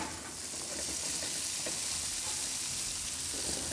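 Butter sizzles in a frying pan over a turned-down flame, a steady, even crackle and hiss that holds at a moderate level for the whole stretch.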